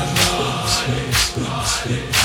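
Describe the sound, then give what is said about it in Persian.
Rhythmic clapping in unison at a religious gathering honoring Ali Akbar lands as about five sharp, bright beats spaced roughly half a second apart over a busy low background. “صدای تشویقت برای من نیست برای علی اکبره. گوش فلک رو شر کنه صدا تشویقت خرج کن خودتو.”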